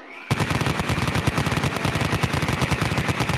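A Vulcan rotary cannon fires one sustained burst of rapid, evenly spaced shots. It starts abruptly after a brief quiet moment and stays loud and unbroken to the end, with no voices.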